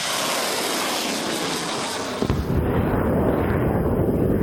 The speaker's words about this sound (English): The Mehrsads launched their missiles one after the other.